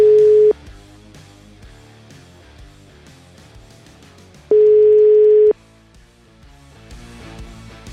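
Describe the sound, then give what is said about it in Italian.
A telephone ringback tone plays while a call is placed: two steady single-pitched beeps roughly four seconds apart, the first cut short, over quiet background music. “Sentiamo ancora Donolato chiamare.”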